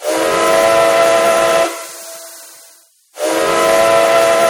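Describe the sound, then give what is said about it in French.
A steam train whistle sounds at a railway station: a loud, hissing, sustained blast trails off into quiet, then a second strong blast starts abruptly, with steam hiss running through both. “Ah, écoutez, le train va bientôt passer.”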